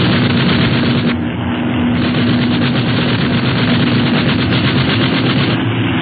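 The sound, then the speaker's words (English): Sustained rapid gunfire aimed at an aircraft, a loud, dense, unbroken rattle lasting the whole clip with a steady droning tone beneath. “Okay, start shooting.”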